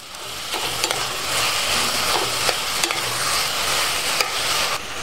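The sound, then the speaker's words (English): About 500 grams of beef mince sizzles in a pan with a steady, hissing fry, broken by several small scraping clicks as it is stirred. “I'm using about 500 grams of beef mince. And we want to get some color on the beef as well.”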